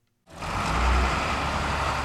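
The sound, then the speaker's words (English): Engines of a line of yellow school buses at the end of the school day at State High rumble in abruptly, then hold a loud, steady low drone. “It's the end of the school day at State High. Students converge from all directions on a line of yellow school buses.”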